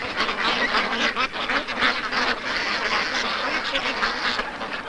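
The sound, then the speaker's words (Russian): Ducks quack as they crowd and jostle while greedily eating, many overlapping nasal quacks forming a dense, continuous chatter at moderate loudness. “Утки, толпясь и толкаясь, жадно поедают еду.”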